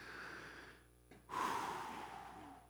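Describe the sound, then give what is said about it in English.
A deep, audible breath, taken slowly, with a soft breathy rush that swells and fades, heard alone without talk. “We just need to take a deep breath and pause.”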